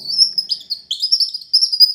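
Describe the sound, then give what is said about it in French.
Bird chirping: many bright, high tweets in quick, uneven bursts, loud and alone against silence. “Un matin, un oiseau est venu.”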